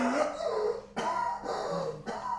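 Staged theatrical coughing and choking from a performer acting out an allergic reaction: a few harsh, abrupt bursts separated by strained, voiced gagging sounds.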